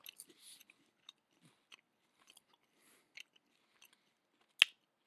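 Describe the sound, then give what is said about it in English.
Chewing a banana flavored Rice Krispie treat gives soft, sparse crunchy clicks and small mouth sounds scattered through near-silence, ending with one sharper, louder crackle. “I don't know if it's a banana in my mouth or if this just tastes kind of like banana, but I'm still tasting banana. This is a banana flavored Rice Krispie.”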